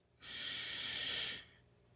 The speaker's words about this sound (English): Come on, let's try that one more time. Breathe in.